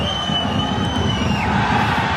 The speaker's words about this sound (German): Die, die hier jubeln. Der FC Aarau, der grosse Partyquatscher, und zwar zu Vaduz.